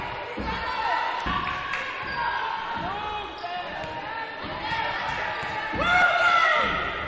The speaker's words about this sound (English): Again, slap of the basketball.